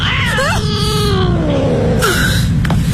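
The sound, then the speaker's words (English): A cat meows in a few wavering, drawn-out cries, one stretching into a long falling wail, heard clearly over a steady low rumble. “It's okay. It's just a cat. Nothing to worry about.”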